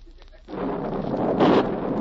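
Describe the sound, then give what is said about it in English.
A sound-effect explosion from a lit fuse charge in a radio drama: after a quiet moment, a broad, deep rumbling roar bursts in and holds steady, swelling slightly before the end. “He's lighting the fuse now and running.”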